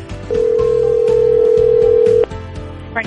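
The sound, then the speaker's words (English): A telephone call to an insurance company rings through as one long, steady ringback tone lasting about two seconds. It sits over a quieter background and then cuts off abruptly. “We're dialing Franklin County Farmers Mutual Insurance Company to get another winner with the WRBI 103.9 Days of Summer.”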